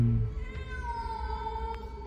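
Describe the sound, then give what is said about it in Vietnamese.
An angry cat hiding in a hibiscus hedge lets out one drawn-out, harmonic meow that holds steady for about two seconds, fairly quiet and alone. “là một con mèo kêu lên một cách giận dữ khi khuôn mặt của tôi vừa thò vào chỗ nó đang ẩn nấp.”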